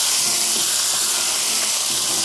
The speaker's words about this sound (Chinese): 少许的生抽，再加入一些水，把火开到中火，